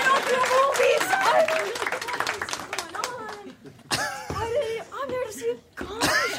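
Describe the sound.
Audience applause and clapping for a volunteer called up on stage at a comedy show, with voices talking and some laughter over the clapping, which swells again in bursts toward the end.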